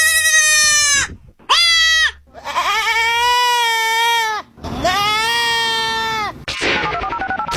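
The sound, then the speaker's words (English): Goats bleating, a baby goat and its mother, in several loud, distinct calls of varying length. Some bleats are short and others long and wavering, with brief pauses between them. “It was a goat. Yes, I think it was a baby goat and a mama goat.”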